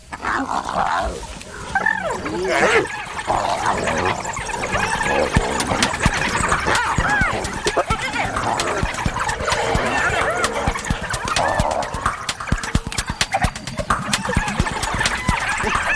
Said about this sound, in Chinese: 刚刚来的那只斑鬣狗地位比较低。斑鬣狗自己打起来了，